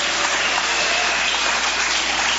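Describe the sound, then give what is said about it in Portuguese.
A church audience claps together, producing a continuous, hissing patter of many hands that stays steady and unbroken from start to finish. “Bate palmas para Jesus, aleluia!”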